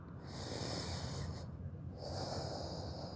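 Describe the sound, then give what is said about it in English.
Slow, audible breathing during a yin yang yoga session: two long, airy breaths separated by a short pause, soft and steady with no talk. “take a breath”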